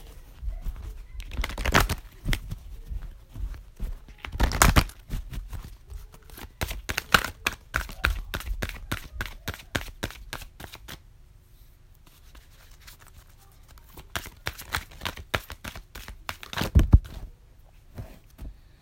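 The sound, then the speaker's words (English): Playing cards are shuffled in several bursts of crisp, dense riffling and flicking clicks, separated by quieter pauses, soft overall. “Well, two cards fell out, so I'm just going to take it.”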